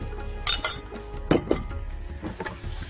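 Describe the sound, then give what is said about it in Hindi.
Metal clinks of a spoon against a pot as whipped yogurt is stirred into chaap cooking in ghee; a few sharp, bright knocks sound at an uneven pace over a low background hiss. “दही, जिसको हमने फेंट के भी रखा है आपके सामने, ये ऐड कर देंगे हम चाप में। और यहाँ पे इसको मिक्स करके”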